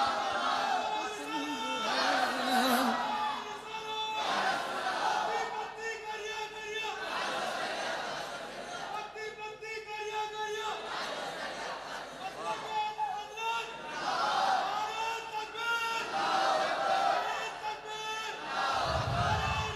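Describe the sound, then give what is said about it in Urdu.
A crowd chants a religious slogan, with repeated waves of loud massed voices rising and falling in a steady rhythm. The chant continues for the whole stretch. “ماشاء اللہ, اللہ سلامت رکھے میرے بھائی کو. بہت اچھا نعرہ بلند کیا ہے, اللہ اس مستقبل روشن فرمائے.”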